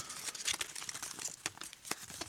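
Faint, crisp rustling and crinkling of paper slips as one is drawn from a pile of them: many small, quick crackles in an uneven patter.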